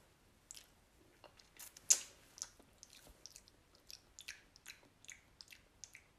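Faint chewing of a bite from a ready-made food bowl: many soft, irregular squishy and crunchy chews over a quiet background, with one sharper crunch early on.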